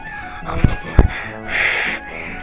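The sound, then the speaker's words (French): A voice imitates a wolf blowing hard on a brick house: two low puffs, then one sustained breathy whoosh of about half a second, fairly loud. “Il souffla fort, très fort.”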